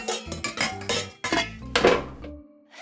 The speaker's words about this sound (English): Bobby's room where I'm about to pull a sheet of Primo chocolate chip cookies out of the oven.